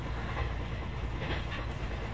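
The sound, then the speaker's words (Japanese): Steady rumble of a train running as it nears its terminus, heard aboard, with a dense low roar and faint rhythmic clatter throughout. “ご乗車ありがとうございました。およそ2分で終点の新大阪です。”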